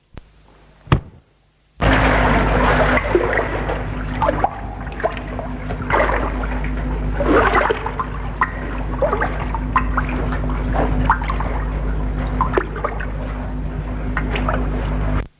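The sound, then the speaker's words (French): Oars rowing a boat across water, with dense, continuous sloshing and splashing and a steady low hum underneath, beginning after a brief click and a short silence. “Puis elle s'assoit, prend les rames et s'éloigne.”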